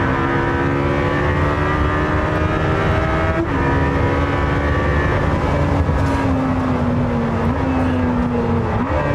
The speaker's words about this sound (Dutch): Je hoort ook af en toe buiten, zeg maar, even zo'n chirp, zo'n piep van de banden als die gewoon doorschakelt. En dat volle vermogen en het koppelen weer opklapt.